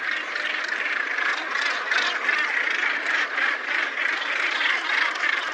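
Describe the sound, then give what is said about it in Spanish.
Northern gannets crowd a breeding colony on sea cliffs, thousands of pairs making a dense, continuous chorus of harsh, overlapping calls that never lets up. “Cría en colonias abarrotadas con miles de ruidosas parejas instaladas en cantiles imposibles que suenan así de folloneras.”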